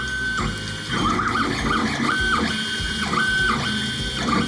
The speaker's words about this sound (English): Do you know what that is? It's the sound of the machine that could disrupt manufacturing as we know it. It's a 3D printer.